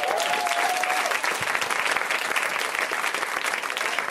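An audience at a comedy show applauds the comedians' hats with steady, even clapping; a whistle rises briefly at the start.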